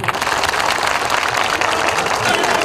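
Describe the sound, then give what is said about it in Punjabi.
Audience applause welcoming a Punjabi poet and singer onto the stage at a live show: dense, steady clapping from many hands that keeps an even loudness from start to end. “ਇੱਕ ਵਾਰ ਜ਼ੋਰਦਾਰ ਤਾੜੀਆਂ ਮਾਰ ਕੇ ਮੱਖਣ ਬਰਾੜ ਜੀ ਦਾ ਸਵਾਗਤ ਕਰੀਏ।”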